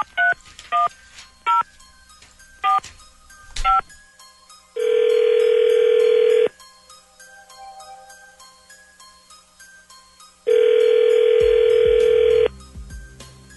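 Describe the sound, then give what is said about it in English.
A telephone keypad is dialed for a prank call: a quick run of about seven sharp touch-tone beeps, then two long, steady ringing tones separated by a pause, with no talk. “Dialing at random. Okay, here we go.”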